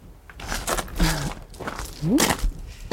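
Footsteps of people walking outdoors on a guided nature walk, a few uneven, moderately loud steps with soft thuds in between.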